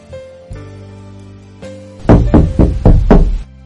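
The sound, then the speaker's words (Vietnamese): Knocking on a door comes as a quick, firm run of about five even raps, following a stretch of sustained, steady musical tones that fade out as the knocks begin. “Tiếng đập cửa vang lên.”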